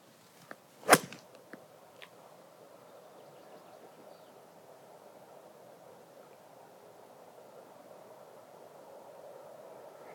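A golf ball struck with a hybrid 5 club on a course: one sharp, bright crack among a few fainter clicks, then a long stretch of quiet, steady outdoor hiss.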